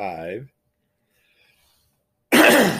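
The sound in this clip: Throat clearing from a dry, scratchy throat blamed on medication: a brief voiced grunt, a pause, then a harsh, noisy rasp, with no talking.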